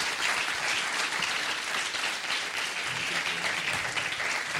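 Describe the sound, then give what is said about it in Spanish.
Audience applause for the speakers of a round-table discussion on podcasting in education, a steady, dense clapping that continues evenly for several seconds at moderate loudness. “Muchas gracias y os pido un aplauso para ellos.”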